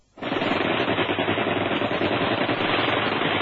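Sustained rapid automatic gunfire in a radio drama shootout: a dense, unbroken burst of loud crackling shots that starts after a brief silence and continues at steady intensity to the end, with no voices.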